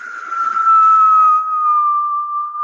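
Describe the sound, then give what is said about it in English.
Wind whistling as a thin, steady whistle held at one high pitch for nearly three seconds, fairly loud and heard alone. “you hear this, like, whistling sound through the wind”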